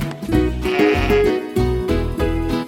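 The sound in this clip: Sheep bleating in a run of repeated, wavering, nasal calls, loud and close together with short breaks between them, and no voices over them.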